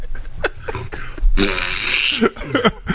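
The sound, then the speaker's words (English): A person imitates a fart with their voice, mimicking how an A-10 jet sounds, producing sputtering, buzzy, raspberry-like vocal noises that run in uneven bursts for a few seconds. “Farting sound.”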